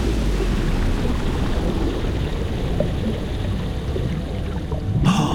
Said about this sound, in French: Et maintenant, on plonge.